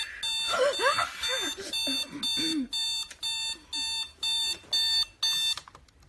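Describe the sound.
Alarm clock going off with a bright, repeating electronic beep in even, pulsing bursts that stop abruptly at the end, and whiny vocal sounds over the first beeps.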